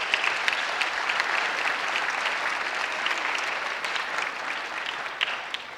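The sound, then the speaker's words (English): An audience in a church applauds child performers with dense, steady clapping that holds at an even level throughout and eases a little at the end. “Let's give them a hand.”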